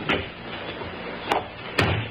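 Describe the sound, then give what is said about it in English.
Faint, short clunks from a car as the brake is released and the door is closed on a road above a downgrade: three sharp knocks in a quiet space, the last one the heaviest. “Then stand aside while I release the brake and close the door.”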